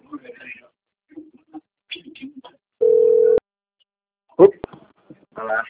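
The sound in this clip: A single steady electronic phone tone for an incoming call from a bank sounds for about half a second between short bits of voice and a few clicks.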